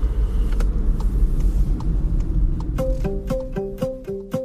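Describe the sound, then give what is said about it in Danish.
Car driving along a road through a forest near Højbjerg, with steady low engine and road rumble throughout. Near the end, a run of short, stepped melodic tones joins the rumble. “Nu kører vi ud i Højbjerg og på vej ned gennem skoven”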